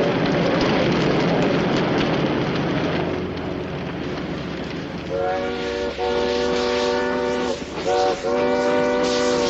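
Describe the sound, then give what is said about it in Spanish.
A steam locomotive pours out black smoke as its train pulls in and stops, in a 1973 western. A heavy, hissing rumble is followed in the second half by a few loud, high whistle blasts. “De pronto llega un tren que se detiene allí mismo. El humo que desprende la locomotora forma una gran nube negra.”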